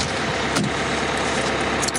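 A bus engine idling at a stop, giving a steady low rumble that holds evenly throughout, with a couple of faint clicks riding on top.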